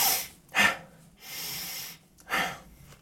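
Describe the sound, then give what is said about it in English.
Forceful breathing through the nose and mouth, demonstrating a pattern of deeper inhales and shorter exhales: a few breathy rushes of air, two short sharp bursts around a longer, steadier breath, with no talking. “So deeper inhale, shorter exhale. Yeah, so it looks something like.”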